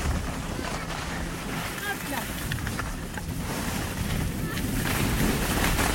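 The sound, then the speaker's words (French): Skis hiss and scrape continuously on a ski slope where the snow is fairly good and slightly slippery. The sliding noise is broad and steady, mixed with buffeting wind noise on the microphone. “La neige est pas trop mauvaise. Ça glisse un peu, je vous fais un petit peu écouter.”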